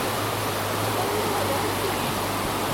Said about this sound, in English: we're now just in a very beautiful river. Just enjoying the cooler air.